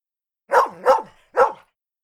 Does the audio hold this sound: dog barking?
yes